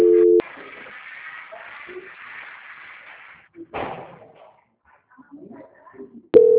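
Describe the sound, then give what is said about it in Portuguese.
A telephone call ringing on the other end, heard as two short, loud, steady ringback tones at the start and the end, with faint muffled noise and a single thump in between. “Tá tocando lá, eles já vão atender.”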